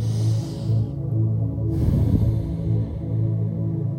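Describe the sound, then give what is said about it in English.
A slow, deep breath taken during a guided grounding meditation, with a soft airy inhale and exhale over a steady low hum. “Just taking a deep breath here now.”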